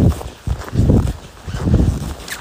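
Footsteps crunch and squeak on snow at minus six degrees. A few loud, rhythmic steps stand alone with no talk.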